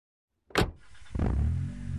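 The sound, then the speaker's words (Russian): A car door shuts with a sharp thud. After a short pause the engine starts and settles into a low, steady rumble. “Я сел в машину, завел двигатель.”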